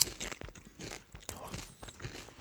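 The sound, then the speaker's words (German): Crunchy basil-flavoured potato chips are bitten and chewed, giving quiet, irregular crisp crunches and crackles with no steady rhythm. “Okay, ich probiere dann auch mal. Ja, das ist ein ganz anderes Geschmackserlebnis. Da schmecken jetzt auch mal die Chips. Da das Basilikum an den Chips ist, das schmeckt ganz toll.”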